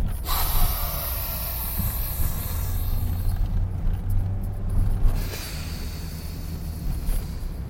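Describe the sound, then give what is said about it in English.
Deep, heavy breaths drawn and pushed through the nose, a rough rushing hiss with snorting edges and a low rumble that runs steadily throughout, with no clear pauses between breaths. “All right, that's three deep breaths.”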